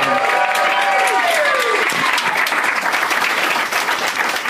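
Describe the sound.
An audience applauds a game contestant, a dense, steady wash of clapping that holds at an even, loud level throughout.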